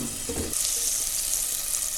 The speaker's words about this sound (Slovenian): Tako, čebula se zdaj že zlato rumeno opražila in zdaj bom pa dodal še bel fižol. Tudi opražil.